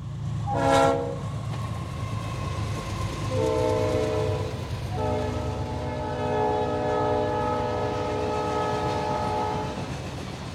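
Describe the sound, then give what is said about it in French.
A train near a French station sounds its horn over a steady rumble of rolling wagons: first a brief high whistle blast, then a shorter multi-tone horn note, followed by a long sustained horn chord. “Et en fonçant tête baissée vers la gare pour voir s'il y avait encore un train, un TGV, un TER, une brouette, n'importe quoi”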